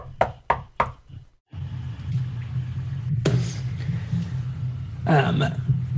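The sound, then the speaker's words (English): Sharp knocks on a bedroom door in a tabletop role-playing game scene: a quick series of loud, crisp raps, then fainter taps, giving way to a steady low rumble. “He comes down to the bedroom where you're staying and gives a nice knock on the door.”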